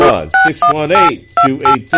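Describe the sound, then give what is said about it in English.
Telephone keypad dialing tones: a rapid series of bright electronic beeps as a number is entered, sounding alongside a voice. “And we are dialing”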